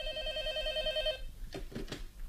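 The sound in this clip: A telephone ringing with a steady, pulsing electronic tone for about a second, then cutting off, followed by a few short knocking noises.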